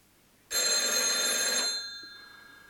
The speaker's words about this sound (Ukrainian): Звініць телефон.